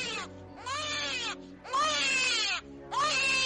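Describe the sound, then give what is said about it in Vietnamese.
A child crying and a girl screaming in pain during an exorcism ritual: four loud, high, wavering wails with quivering pitch, separated by short breaks. No other sounds are present. “Tiếng trẻ con khóc càng dữ dội. Rồi con bé hét lên trong đau đớn.”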